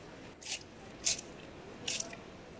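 Soft wet squishes of biting into fried food dipped in hot soup broth: three faint, juicy bites spaced apart over a low steady hiss.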